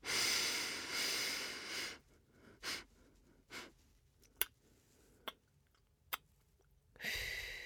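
A deep breath drawn in during a guided breathing exercise, heard as a loud, airy inhale at the start. Quiet follows, broken by faint short breaths and a few sharp clicks, and another breath begins at the end.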